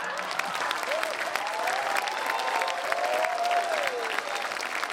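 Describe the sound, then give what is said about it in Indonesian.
Audience applause: dense, steady clapping that fills the whole stretch at an even loudness. “Boleh tepuk tangan buat Marion Jola.”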